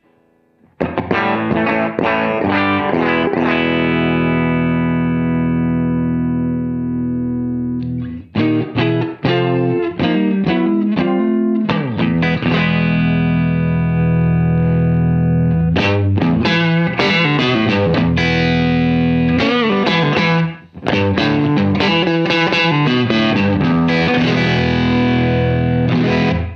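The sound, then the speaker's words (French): Electric guitar played through a Super Lead 68 amplifier on the neck pickup with volumes lowered, a snappy, slightly driven tone in ringing chords and riffs, broken by two short pauses. “je vous propose qu'on recommence la visite en rebaissant les volumes, en mettant le volume 2 à 0 et en passant sur le dernier, sur le deuxième ampli, donc le Super Lead 68.”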